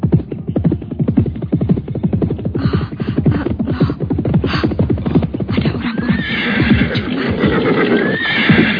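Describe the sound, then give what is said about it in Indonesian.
Horses neigh and whinny loudly as three riders on horseback arrive, the rattling, heavily harmonic calls overlapping in a dense, continuous stream from start to finish. “mereka baru melangkah beberapa tindak ketika mendadak muncul tiga orang berkuda mengampiri mereka.”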